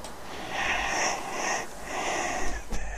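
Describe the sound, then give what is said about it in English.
Close breathing right at the microphone, a few long, airy breaths with a soft hiss and slight wheezy edge, steady and fairly loud, with no talk. “There, let me get it there. Let me get it there and you can sort of hear the breath. A little bit better.”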